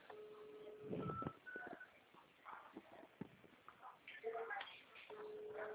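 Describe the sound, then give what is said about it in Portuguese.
Ringing of an outgoing video call on a mobile phone, steady tones heard at the start and again at the end, with people talking in between and over it. “Ligar de vídeo, fica melhor. Que daí a senhora me vê e eu vejo a senhora. Tô ligando.”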